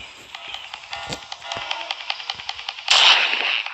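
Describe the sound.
Shotgun fired in a horror video game: one loud, harsh blast after a steady run of soft, regular clicks.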